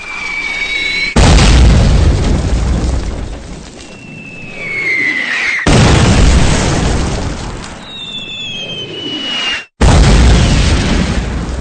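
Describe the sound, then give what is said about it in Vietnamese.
Heavy artillery fire pounds a village hamlet in three loud, roaring blasts spaced a few seconds apart. Whistling tones fall in pitch in the lulls between them. “Tiếng súng lớn lại gầm lên dữ dội trở lại, nhưng lần này hỏa lực dường như chỉ gom về phía xóm chứ không rải ra như lần đầu nữa.”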